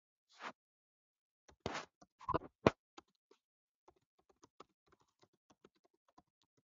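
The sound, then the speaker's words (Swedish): Typing on a computer keyboard while a link is entered into a chat: a few quick clustered keystrokes at first, then a run of sparse, faint single taps, with no talking. “Så jag ska bara skriva den till dig här i chatten.”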